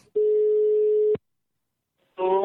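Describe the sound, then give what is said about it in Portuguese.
A telephone ringback tone sounds as a call goes through: one steady, even tone holds for about a second, then cuts off into silence. “eu vou ligar pra Orlandina. Liga lá.”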